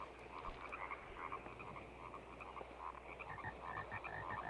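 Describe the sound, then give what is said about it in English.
Bullfrogs croaking in a faint, steady chorus of repeated low croaks over a continuous background hiss, with no voices. “Cut shot of more frogs everywhere. They look like bullfrogs.”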